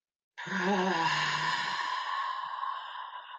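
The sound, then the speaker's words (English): A deep breath during a morning breathing exercise is released as one long, audible sigh. It is voiced at first, then trails off into airy breath for about three seconds. “Okay, ready? Breathe in. Hold. Breathe out.”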